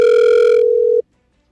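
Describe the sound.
Telephone ringing tone heard while calling someone: one loud, steady, mid-pitched tone holds for about a second, then stops abruptly into silence, with no voices over it.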